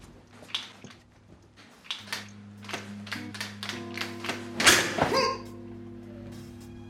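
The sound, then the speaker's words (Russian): Knocking on a door comes as many irregular knocks and thunks that grow gradually louder, with a harder cluster of bangs near the end over a steady low hum. “Стучал в двери и вломился в нее.”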